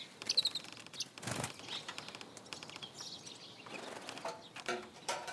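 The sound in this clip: A sparrow chirps and flaps at an iron windowsill, giving short, high, faint chirps scattered throughout, with a brief flurry of wingbeats near the start.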